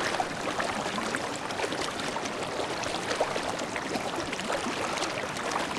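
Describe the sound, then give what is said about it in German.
Water flows gently in a soft, steady rush, faint and even throughout, with small splashes scattered through it and no voices. “lausche dem Wasser und erlaube deinem Herzen zu fließen.”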